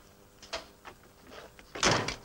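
A door opening into a mineralogy lab: a few light clicks and knocks, then a louder, broader thud and sweep near the end, with no voices.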